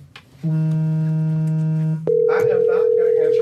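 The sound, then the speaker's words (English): A phone's electronic tone during a livestream: a steady low tone holds for about a second and a half, then a higher steady tone follows with other noise over it. “I am not going to answer my phone,”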